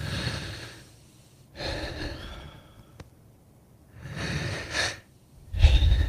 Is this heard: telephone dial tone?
no

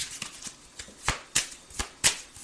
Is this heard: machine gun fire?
no

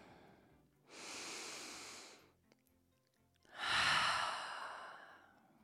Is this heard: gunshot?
no

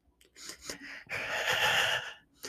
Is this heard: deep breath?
yes

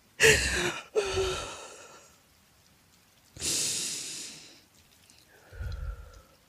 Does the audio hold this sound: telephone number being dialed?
no

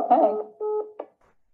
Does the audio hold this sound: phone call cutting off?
yes

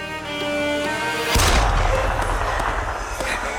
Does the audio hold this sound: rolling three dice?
no

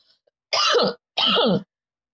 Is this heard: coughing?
yes

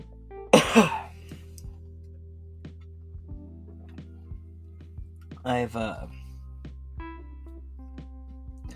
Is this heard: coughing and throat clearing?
yes

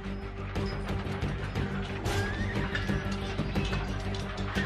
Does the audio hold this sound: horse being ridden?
yes

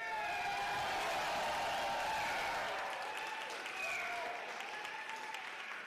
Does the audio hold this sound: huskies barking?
no

